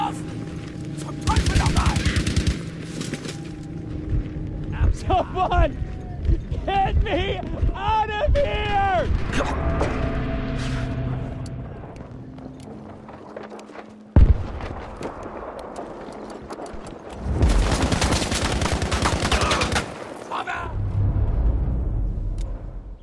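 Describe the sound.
Gunfire in the Battlefield V video game, with loud bursts of rapid automatic fire and scattered shots, one sharp bang midway, and voices talking over the action.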